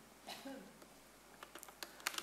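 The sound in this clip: Sharp clicks on a computer, faint and dry, come as a few quick taps bunched in the second half, with a quieter stretch before them.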